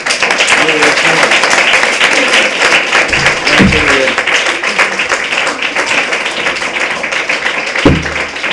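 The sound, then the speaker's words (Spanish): Applause during a radio interview with a futsal player, recorded at a fitness centre: dense, steady clapping fills the whole clip, and brief voices break in over it now and then. “yo creo que le vamos a dar un aplauso bien grande a Gemma”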